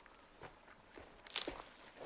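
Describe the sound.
Soft footsteps of someone hiking through a forest in afternoon sun: faint, steady steps over a quiet background, growing a little louder near the end.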